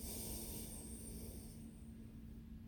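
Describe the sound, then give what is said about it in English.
A slow, deep breath drawn in during a guided meditation, heard as a steady, airy rush of breath that holds at an even level for a few seconds before easing slightly. “let's all take a beautiful deep breath in together.”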